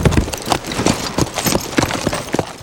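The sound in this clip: Horse hooves clip-clop at an easy riding pace toward the south end of a lake, a fairly loud, steady run of many sharp hoof strikes with no voices.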